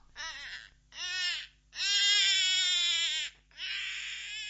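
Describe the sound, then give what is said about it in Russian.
A baby cries in a dungeon in the morning: four long, loud wailing bursts, each a bright, strained cry separated by short pauses for breath, with no talk over it. “Что это? Кажется, ребенок плачет.”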